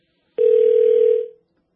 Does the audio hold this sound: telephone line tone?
yes

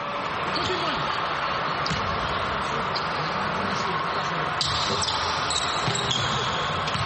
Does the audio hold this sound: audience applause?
no

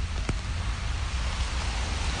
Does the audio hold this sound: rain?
yes

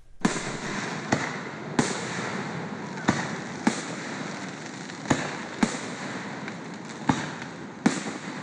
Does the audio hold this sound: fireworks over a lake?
yes

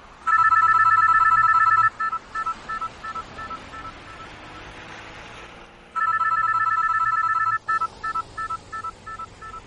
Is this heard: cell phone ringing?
yes

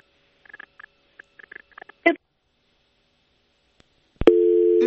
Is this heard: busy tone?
yes

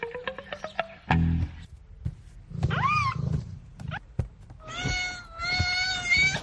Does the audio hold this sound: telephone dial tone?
no

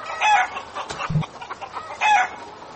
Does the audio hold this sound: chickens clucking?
yes

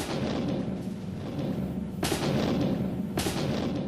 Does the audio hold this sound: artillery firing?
yes

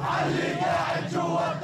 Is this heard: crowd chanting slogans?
yes

